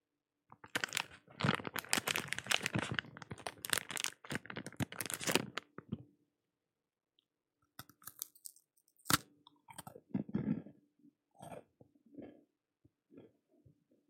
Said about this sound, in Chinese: 包里还有吃的，你要是饿了就拿出来吃。